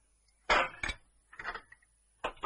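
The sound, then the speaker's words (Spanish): A waiter sets down a plate with a teaspoon at a table where champagne is being served: a few sharp clatters and clinks of china and metal, with quiet gaps between, and no talk. “El camarero le da un plato con una cucharilla.”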